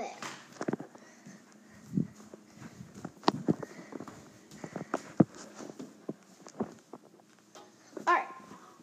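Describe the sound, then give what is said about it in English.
Footsteps walk and jump on outdoor steps, faint irregular thuds and scuffs with a few sharper, heavier impacts scattered through. “Going on the steps. Big jump. Big jump. Might hear me walking.”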